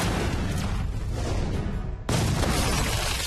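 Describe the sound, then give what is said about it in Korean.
A missile launch roars as a loud, dense burst of noise that holds steady, then cuts to a sudden, sharper blast about two seconds in, which stays loud to the end. “스밀러 미사일 발사”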